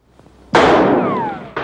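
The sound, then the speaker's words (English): A gunshot goes off as a bullet hits a doorframe: a sudden loud crack with a long decaying roar and a thin falling whine inside it, then another sharp burst just before the end. “a bullet hits the doorframe where he'd been standing”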